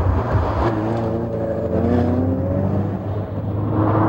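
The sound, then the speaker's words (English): A car drives on the M25 motorway near Junction 5. Its engine makes a steady, loud drone with tonal harmonics that waver slightly in pitch throughout. “And where else to start, John, but Junction 5 of the M25, as driven by two-time Olympic decathlon champion Daley Thompson on his way to see the site of the Battle of Hastings. Let's hear it.”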